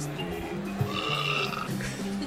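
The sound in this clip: A low, rumbling burp, faint and drawn out, sits over a steady tonal background.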